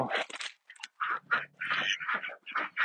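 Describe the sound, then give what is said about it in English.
A group of mallard ducks quacks in winter, with many loud, raspy quacks in quick overlapping bursts and short pauses between. “I'm going to quickly count our ducks. We have all of our ducks, including Crowley”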